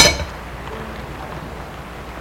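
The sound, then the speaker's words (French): A crowbar dropped beside a lifted stone slab gives one sharp metallic clang that rings briefly and fades quickly into near silence. “Une fois qu'il l'a déplacée, en la posant sur le côté, Sweety lâche sa baramine.”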